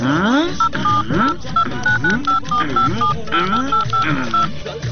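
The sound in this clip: A telephone is dialed with many short keypad tone beeps, in an uneven sequence of brief, steady pitched blips. They sound throughout under continuous talking voices.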